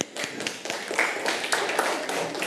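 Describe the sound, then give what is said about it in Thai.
A class of students applauds a student representative's answer in a classroom. Many scattered claps overlap in a brief, fairly loud, uneven burst lasting a couple of seconds. “ปรบมือให้กับตัวแทนค่ะ”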